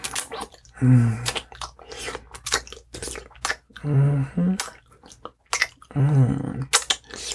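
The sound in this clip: Wet kissing sounds: a few loud, squishy smacking bursts with short quiet gaps between them and no talk.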